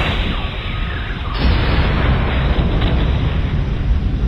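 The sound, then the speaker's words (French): A weapon fired at a target sets off an explosion: a loud, continuous rumbling roar that surges in force partway through and keeps blasting steadily to the end. “tirez dessus dès que nous serons à portée. Nous y serons dans 3, 2, 1, feu !”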